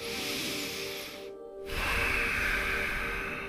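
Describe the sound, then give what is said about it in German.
A slow, deep breath during a guided relaxation: a soft, breathy rush pauses briefly, then returns as a fuller, louder airy sweep. A gentle sustained musical drone sits underneath, and there is no talk. “nimm vielleicht einen tiefen Atemzug.”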